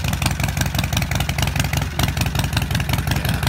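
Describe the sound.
A twin-cylinder motorcycle engine idles fast with a stumble, giving a loud, steady, rapid burble of uneven firing pulses and mechanical clatter.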